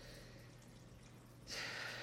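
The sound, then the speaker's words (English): A deep breath drawn in, faint and hissy, rising out of a low steady hum and swelling over the last half second. “take a breath with me. That was a really not a letting go breath.”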